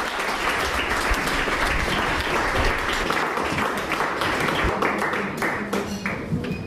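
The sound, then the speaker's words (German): Audience applause for two musicians at a literary reading: sustained, dense clapping that thins toward the end into scattered individual claps, with no voices over it. “Darum bitte ich jetzt gleich um einen kräftigen Applaus für Jürgen Osterloh und Jan Behrens.”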